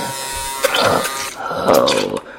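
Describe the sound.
Electric shaver buzzing in a raspy, steady drone that swells twice, with a short dip between the two louder stretches.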